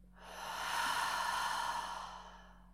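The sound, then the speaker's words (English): A deep breath during a guided relaxation exercise, one long, soft, airy rush that swells gently and fades out like a sigh, heard alone over a faint steady low hum. “1 more time. Deep breath in. And out.”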